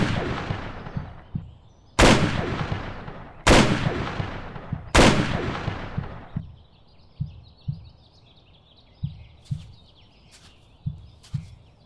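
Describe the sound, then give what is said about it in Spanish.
Gunshots fired at a fence: four loud, sharp reports with long ringing tails, spaced at fairly even intervals, followed by a series of fainter low thumps. “Tienes que disparar a la barda. No me apuntes a mí”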